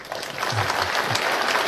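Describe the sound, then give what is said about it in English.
An audience applauds with moderate, steady clapping that stays even in level and never builds into a rousing ovation. “That's not a rousing applause from, well, maybe. There's a lot of old people.”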